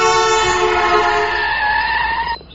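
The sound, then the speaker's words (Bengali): A large Punjab lorry's horn blares loud and sustained for over two seconds, a rich, steady tone that cuts off abruptly near the end. “একটা বিরাট সাইজের Punjab lorry এমন horn দিতে দিতে গেল যে কিছুক্ষণের জন্য আমার কানে তালা লেগে গেল।”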